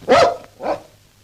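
A dog barks twice, a loud, full first bark followed by a softer, shorter second one, with no talk over it.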